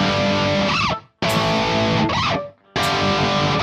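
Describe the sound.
Electric guitar played through distortion, loud sustained power chords broken twice by short dips where string noise and squeaky slides sound during chord changes.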